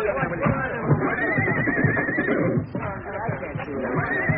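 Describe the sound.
Horses whinnying as thoroughbreds and old nags are moved between stock vans and a barn: high, wavering neighs rise over men talking throughout.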